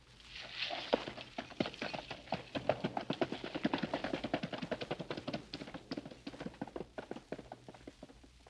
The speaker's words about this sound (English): They saw him ride towards the fort, picking his way among the dead Arabs.